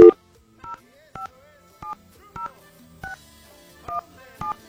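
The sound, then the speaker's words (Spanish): Touch-tone keypad beeps as a telephone number is dialed. Many short dual-tone presses are spaced fairly evenly, each one brief and moderately loud over a faint low hum. “Se me van a desgastar los dedos de tanto marcar aquí estos números telefónicos.”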